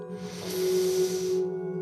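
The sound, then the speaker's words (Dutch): A deep breath drawn in from the pelvic area during a guided breathing exercise, heard as a soft airy hiss of about a second over a steady sustained background tone. “En dan haal je heel diep adem vanuit je bekkengebied.”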